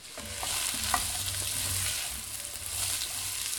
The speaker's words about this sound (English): in a heavy pot, such as a Dutch oven. And to our melted butter, we will add the chopped celery, onions, and carrots.